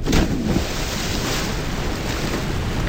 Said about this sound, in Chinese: 这些声音在夏天很悦耳，这些水声在夏天很诱人